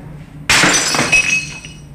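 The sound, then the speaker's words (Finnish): An old porcelain plate hits the floor and shatters in one sudden loud crash, followed by a short scatter of bright, clinking fragments that thins out over the following second. “Toinen on keltainen, tavallinen muovilautanen ja toinen on vanha porsliinilautanen. Katsotaanpas, miten niille käy. Käsitykseni mukaan tuo porsliininen menisi rikki. Ensin tämä porsliininen.”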